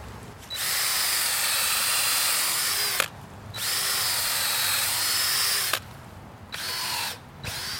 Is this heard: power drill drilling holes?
yes